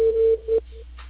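Telephone ringing tone while a call is being placed: a steady low-pitched electronic tone in short beeps, with a faint hum beneath.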